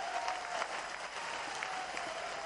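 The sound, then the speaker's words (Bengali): Audience applause at a political gathering marking a project inauguration: dense, steady clapping from a crowd, fairly faint, continuing evenly from start to end. “আমরা করতালির মাধ্যমে আমাদের এই প্রাণের দাবি পূরণ করার জন্য মাননীয় প্রধানমন্ত্রী তারেক রহমান এমপিকে করতালির মাধ্যমে আমরা অভিনন্দন জানাচ্ছি।”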